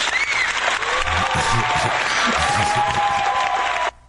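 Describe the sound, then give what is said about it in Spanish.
Studio audience in Mexico City applauds a guest's arrival, a loud, steady burst of clapping that holds evenly for several seconds and then cuts off abruptly near the end. “Ya tienes hasta, ya tienes hasta porra y coro y todo.”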